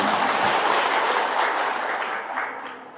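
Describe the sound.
Applause from an audience at a talk, a dense steady patter of many hands clapping that tapers off toward the end.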